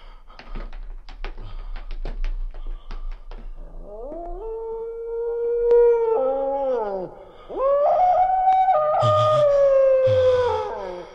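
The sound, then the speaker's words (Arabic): A dog howls in long, wavering, rising tones after a run of sharp taps. A drawn-out howl is followed by a second, louder and sustained one. “إنه كلب، إنه كلب.”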